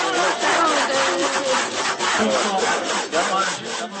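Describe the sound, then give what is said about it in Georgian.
A hand saw cuts through a border crossing barrier during a ceremony marking the end of passport controls, with steady, rasping back-and-forth strokes repeating many times in an even rhythm. “ეს ხერხის ხმა სახელმწიფოთა მეთაურებმა არაერთ გამშვე პუნქტზე, რომლებზეც 21-ში გაუქმდა საპასპორტო კონტროლი, სიმბოლურად გადაჭრეს სასაზღვრო შლაგბაუმი.”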